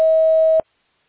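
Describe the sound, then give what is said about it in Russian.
A loud, clean voicemail beep signals the start of message recording: one steady mid-high tone held for about half a second, then cut off abruptly into silence. “После сигнала, пожалуйста, запишите свое сообщение.”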